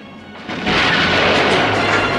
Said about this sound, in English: the control room is rocked by explosions